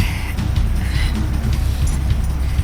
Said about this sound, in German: Eigenartig, dass sich mein MG über Nacht quasi von selbst repariert hat. Egal, jetzt gib Gas weiter.